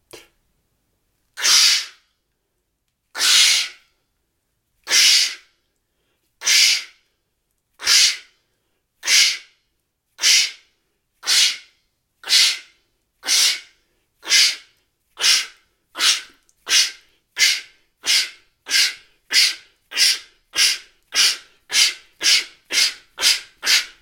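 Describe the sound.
Rhythmic, forceful breathy bursts from a voice exercise in which the voice imitates a locomotive: many hissing 'ksch' puffs heard alone, widely spaced at first and steadily speeding up into a quick, chugging rhythm.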